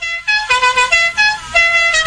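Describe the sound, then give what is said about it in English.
Horns honk in a rapid, irregular string of short, bright, brassy blasts at shifting pitches, loud and heard alone with no talk. “Enough with the honking. Hold on to your honking, will ya?”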